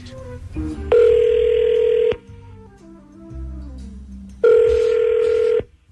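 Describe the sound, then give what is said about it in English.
A telephone dialed for a conference call: a few quick dialing beeps, then two long, steady ringing tones separated by a quiet pause. “All right, you dial her up and conference us in.”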